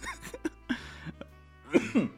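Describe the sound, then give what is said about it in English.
Coughing from smoke: a run of several short, harsh, irregular coughs with gaps between them, and two louder coughs close together near the end. “the fucking coughing, the smoke.”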